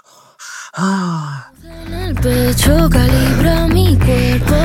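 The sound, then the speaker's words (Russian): Heavy breathing in a song, set against tense orchestral music: a sharp gasp and a groaning breath with a sliding pitch, then the music enters with a steady pulse and sung notes. “Звучит тяжелое дыхание”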